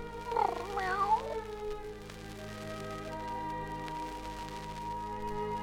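Cat meowing and caterwauling, two rising and falling wailing yowls in quick succession, then a quieter steady background of sustained tones.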